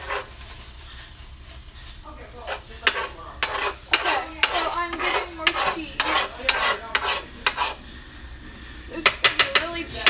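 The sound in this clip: Pancake mix is stirred in a bowl with many quick, repeated scraping strokes, uneven in rhythm and bunching into faster bursts near the end, while people talk.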